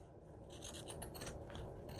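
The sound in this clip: Rough, rasping scrape as the edge of a junk journal page is trimmed: a steady, faint scratchy texture that runs unbroken for about two seconds, with no talk.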